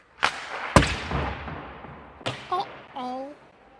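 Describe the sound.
A cartoon ice hockey puck is shot: a few sharp, whip-like cracks of stick striking puck, the loudest near the start, followed by a later smack and brief, pitched vocal yelps.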